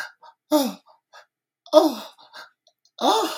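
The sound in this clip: A voice imitates the panicked gasps of women in dubbed horror-film dialogue from 1980: three sharp, breathy intakes at a steady pace, each fairly loud and separated by quieter short breaths and mouth sounds.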